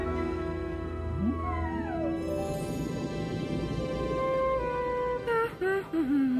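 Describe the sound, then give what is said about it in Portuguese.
A group of whales calls to one another, giving a few long, sliding tonal cries, some sweeping upward and others falling, over a low steady drone. Some later calls waver as they trail off. “um grupo de baleias à direita.”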